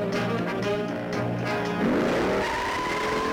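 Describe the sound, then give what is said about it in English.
Tires squeal and engines roar in a film car chase between a Mustang and a Dodge Charger. A steady, loud engine drone carries a sweeping tire squeal partway through. “this probably is the greatest car chase. It's a Mustang and a Dodge Charger.”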